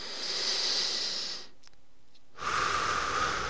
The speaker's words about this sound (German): atme ich tief einmal durch die Nase ein